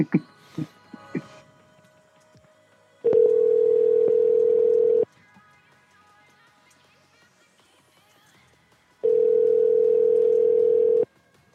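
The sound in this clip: A telephone ringback tone plays while a call waits to be picked up: two long, steady, buzzing tones of about two seconds each, separated by a pause of roughly four seconds, with a few faint brief clicks at the start.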